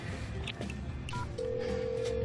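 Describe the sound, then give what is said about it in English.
A telephone number is dialed: a few short electronic keypad beeps, then a long, steady single tone over a constant background hiss. “I'm calling Allison.”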